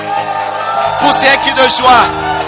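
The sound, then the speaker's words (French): An audience at a French-language church worship service shouts and whoops for joy, a loud, continuous mass of raised voices swelling and overlapping throughout. “Est-ce qu'on peut acclamer le Seigneur? Et pousser un cri de joie.”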